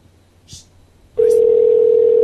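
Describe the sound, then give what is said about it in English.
A telephone dial tone on a call being dialed: after a short quiet stretch with a faint click, a steady, loud single tone starts abruptly and holds unchanged to the end. “We're dialing one more.”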